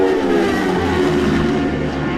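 Racing sport bikes roar past at speed during a qualifying session on the Isle of Man, a loud, continuous engine howl with layered harmonics filling the whole stretch.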